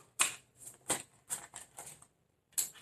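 Tarot cards being shuffled, a few quiet, crisp papery bursts in an uneven rhythm with short pauses between them.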